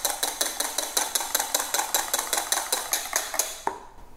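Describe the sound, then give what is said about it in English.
A spoon clinks rapidly against a bowl while a mixture is stirred to dissolve icing sugar. The metallic taps come in a steady, fast rhythm of many strikes and stop just before the end. “Just gonna mix this some more to dissolve the icing sugar.”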